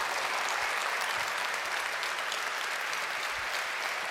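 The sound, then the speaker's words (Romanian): Applause for Professor Constantin Dulcan after his talk: a thick, steady rush of clapping from a large audience, holding one even level throughout without any speech over it. “Aplauze pentru profesorul Constantin Dulcan.”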